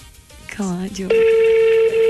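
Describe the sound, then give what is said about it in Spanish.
Ringing tone on an unanswered phone call: a loud, steady, flat tone starts after a brief voice and holds evenly to the end. “No le van a contestar, parece. Su llamada está siendo transmitida.”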